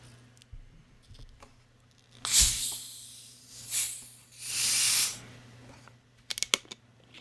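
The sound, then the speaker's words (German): Hissing from a bottle being opened, heard as a few separate bursts of breathy rushing noise, with the last one the longest, followed by a brief cluster of small clicks, with no talking. “Nein, das war meine Flasche, die ich gerade live geöffnet habe.”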